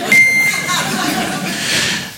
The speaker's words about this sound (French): C'est une star internationale, il est là pour vous ce soir, mesdames et messieurs, le bip.